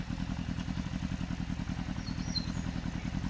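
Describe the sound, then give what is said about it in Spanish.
Motorcycle engine with a fast, even throb that stays at a steady level throughout the short stretch, with no clear slowing or stop. “apareció una moto. Dobló hacia donde estaba Muto y pasó por la mano de enfrente. Disminuyó la marcha, cruzó la ruta y se detuvo a unos 50 metros.”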